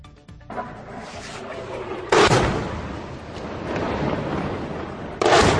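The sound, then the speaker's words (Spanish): Bombs dropped in an air bombardment in Syria, heard as a few heavy booming explosions with a continuous rumble between them, the later blasts loud and broad. “Esto que están escuchando son las bombas lanzadas por Siria.”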